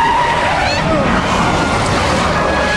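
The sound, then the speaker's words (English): A sedan skids out of control after swerving on a snowy bend, with brief squealing tones over a loud, continuous rush of engine and road noise. “He swerves, avoiding the car. The sedan skids out of control.”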